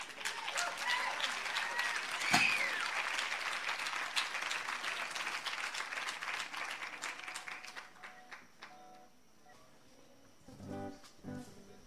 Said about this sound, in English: How about a warm welcome for Mary McLean and Liz Pennock